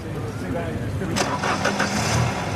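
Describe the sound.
A car engine cranks and catches, turning over with a sudden burst and then settling into a steady running hum.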